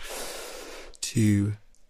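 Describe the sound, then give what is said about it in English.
People breathing in together during a breathing exercise: one long, airy inhale lasting about a second, followed by a short voiced sound and a soft exhale. “Let's breathe together. Okay, ready? Let's do it.”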